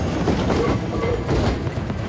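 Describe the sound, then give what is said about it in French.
A tram passes on a street in Cairo at night, a loud, continuous rumbling rail noise with rattling wheels that lasts throughout. “Et là-haut, attention, le tramway!”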